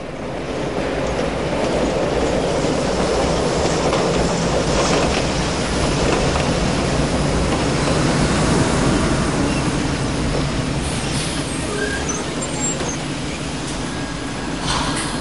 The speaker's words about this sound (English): The tram trundles on and emerges from the tunnel into the open air.